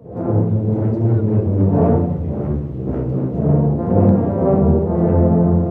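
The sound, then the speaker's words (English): A couple of hundred tuba players play together outdoors near fountain-plaza stairs in Atlanta during the Christmas season. Low, rich brass chords sound loud and continuous, swelling and easing in broad waves. “It's the sound of tubas. A couple of hundred tuba players,”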